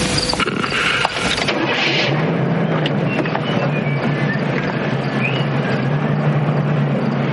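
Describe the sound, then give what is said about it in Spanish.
Car engine and road noise as two people drive off after leaving a bar at closing time, a steady broad rumbling roar with a low hum underneath throughout, no voices. “Aggie y Roy salen del bar tras el cierre y se montan en el coche”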